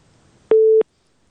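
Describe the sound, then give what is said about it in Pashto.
A single busy-signal tone from a dropped telephone connection: one loud, steady mid-pitched beep of about a third of a second that starts and stops abruptly over near silence. “د بهر صاحب اړیکه خرابه ده”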